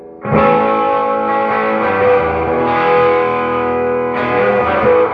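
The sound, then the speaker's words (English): A Guild Starfire DC electric guitar on its bridge pickup rings through a Deluxe Reverb amp with heavy reverb. Three strummed chords sustain and blend into each other, each freshly struck, with a slightly gritty edge. “I plugged up my Guild Starfire DC. Let's go bridge.”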